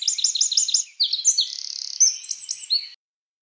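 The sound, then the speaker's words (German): Bird chirping: many rapid, high-pitched chirps and a quick trill follow one another in a bright, loud burst lasting about three seconds, then silence. “dann lassen wir schon wieder den Vogel sprechen, oder?”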